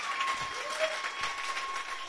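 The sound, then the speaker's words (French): An audience applauds at the end of a church sermon. The clapping is a dense, even wash of sound that holds steady throughout. “Je prends les acclamations, c'est pas à moi, c'est à Dieu.”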